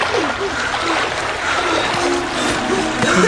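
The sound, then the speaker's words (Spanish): Water splashing and churning as people jump from a capsized boat, a steady, busy wash of splatter and sloshing at moderate loudness. “Lorenzo hizo que el bote se volteara y se tiró al agua junto con Teresa”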